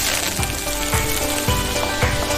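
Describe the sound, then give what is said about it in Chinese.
Fish placed into a hot wok sizzles with a loud, dense hiss of frying oil that holds steady throughout, with no talk. “先把鱼上锅，”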